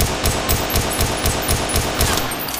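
Rapid gunfire with live rounds in an underground shooting range: many sharp, evenly spaced shots in a steady fast rhythm, each a loud crack with a low thump, continuing without pause.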